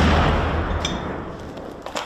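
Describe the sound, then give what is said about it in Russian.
A heavy artillery boom from shells landing in a city under fire opens loudly, then its broad, rumbling roar fades over about two seconds, with a small sharp crack near the end. “В этом случае это были не дроны, да, это артиллерия.”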